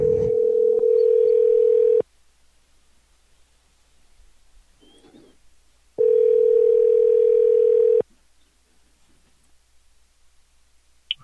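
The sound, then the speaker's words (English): Telephone line tone while a three-way call is being set up: two steady mid-pitched tone bursts of about two seconds each, separated by roughly four seconds of near silence with faint low hum. “I can call a three-way from my phone. I think this is it.”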